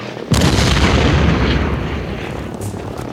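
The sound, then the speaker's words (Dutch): Bombs dropped from a German zeppelin explode: a sudden loud blast sets off a dense, sustained roaring rumble that stays heavy and slowly eases without fully dying away. No voices are heard. “De Belgen waren natuurlijk kansloos tegen de bommen die de Duitsers vanuit hun zeppelin naar beneden gooiden.”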